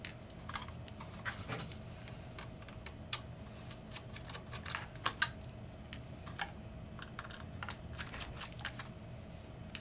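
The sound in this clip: Faint clicks and small scrapes from a Phillips P0 screwdriver undoing the six screws that hold an optical drive, two of them on an interposer board. The sparse, irregular ticks come alone, with no talk.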